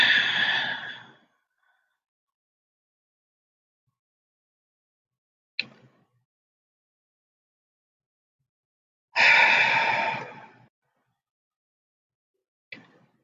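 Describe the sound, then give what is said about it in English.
Deep, slow breaths during a guided meditation: two long, airy breath sounds separated by several seconds of silence, with a couple of brief faint clicks in between. “Deep inhale. Exhale.”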